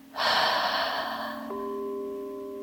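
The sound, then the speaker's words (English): A deep breath drawn in through the nose during a guided relaxation exercise: a single loud airy rush, with a steady soft tonal drone continuing after it fades. “Once more, inhale through the nose. Exhale through the mouth.”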